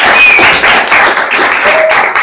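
An audience applauds loudly at a gathering, a dense, continuous wash of many hands clapping, with a brief thin whistle standing out over the clapping.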